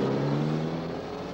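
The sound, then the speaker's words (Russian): A bus engine drives away with a steady low drone and rumble that fades slightly over its brief length, with no voices. “Автобус уезжает.”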